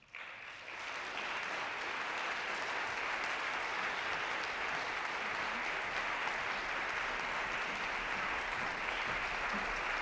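Applause from an audience welcoming performers to the stage for a recital of Purcell songs: dense, steady clapping that holds at an even level for the whole stretch, with no voices over it.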